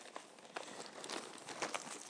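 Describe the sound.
Rustling and crinkling as travel items such as adapters, paper and a pen are pulled out of a bag, with a steady stream of soft crackles and a few sharper rattles.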